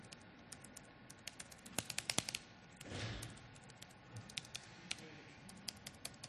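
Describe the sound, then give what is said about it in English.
Keys clatter on a computer keyboard with some broken keys, a quiet run of irregular clicks with a few louder presses clustered together, plus a brief soft rustle partway through. “I press the key but nothing happens.”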